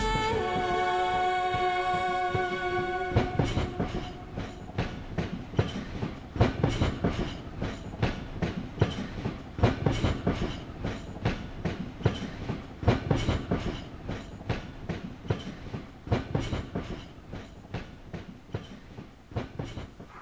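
A train runs on rails with a steady clickety-clack of wheels over the track joints. Many sharp, evenly spaced clacks sound loud and continuous throughout, with no voices.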